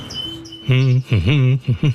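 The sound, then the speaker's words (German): A caged bird sings in an aviary: a thin high tone first, then a run of loud, buzzy harmonic notes with swooping dips in pitch and two short closing calls. “Und man hat den Eindruck, dass auch der Vogel das Herz aufgegangen ist. Statt bewegungslos in der Voliere zu sitzen, wird jetzt geschafft, geflogen und gesungen.”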